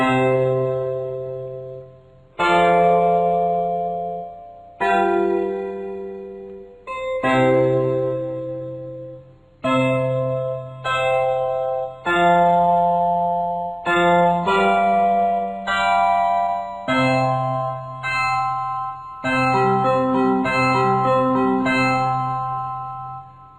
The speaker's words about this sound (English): Let's hear a simple chord progression in the false, tempered tuning.